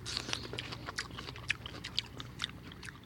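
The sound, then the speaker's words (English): Chewing unripe green star fruit: many crisp, juicy crunches and wet bites come in a quick, uneven rhythm, close and fairly loud, with no talking. “So now we're going to try star fruit that's not quite ripe.”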